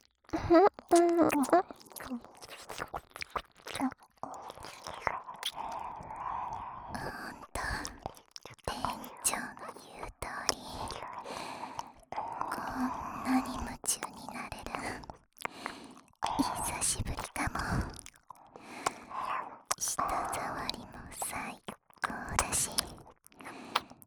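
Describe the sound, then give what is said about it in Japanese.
Wet ear-licking and lip-smacking mouth sounds in a whispered role-play, soft, moist clicks and slurps repeating irregularly throughout, with whispering woven between them. “お兄さんの耳すっごくおいしい。いつまででも舐めていられそうです。”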